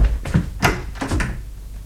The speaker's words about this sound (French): Vas-y, ouvre la porte